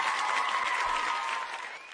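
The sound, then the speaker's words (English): Applause sound effect, a dense burst of many hands clapping together at steady strength that fades away toward the end. “I'm going to give you applause for that.”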